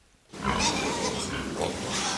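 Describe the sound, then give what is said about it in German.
Pigs and piglets grunting in a pig barn, with sows lying beside their piglets in pens. A steady, loud, dense mix of animal noise begins abruptly after a brief quiet start and continues without a break. “Im blauen Arbeitsanzug und Gummistiefeln geht Schweinehalter Johannes Schaal durch den Stall. In den einzelnen Abteilungen liegen die Ferkel bei ihren Müttern.”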